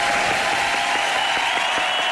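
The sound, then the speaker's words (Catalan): Dense, continuous applause from a crowd, given in honour of a record set in Valls on a windy day. The clapping stays even and sustained throughout, with no pauses. “et dediquem des dels Taloners aquest aplaudiment per fer aquest rècord a Valls.”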